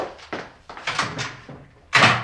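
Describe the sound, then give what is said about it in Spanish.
A door is slammed shut: several softer bumps and knocks lead up to one loud, sharp bang near the end, with no voices. “Y entonces se encoge de hombros y sale dando un portazo.”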